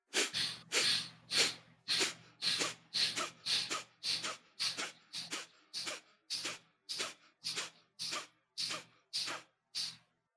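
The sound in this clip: Forceful rhythmic breaths taken with eyes closed during a guided breathing exercise: many loud, even bursts of air in a steady, quick rhythm, alone with no talk.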